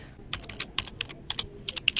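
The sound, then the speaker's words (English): Computer keyboard typing while a search term is entered into a video website, a quick, irregular run of light plastic key clicks, fairly soft and with no voices. “But now I've just typed in YouTube”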